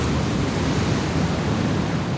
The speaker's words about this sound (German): Die Wellen sind mindestens 3 Meter hoch, kommen von allen Seiten und brausen auf den Strand zu.